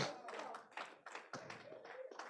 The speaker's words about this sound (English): Clap for the Lord Jesus.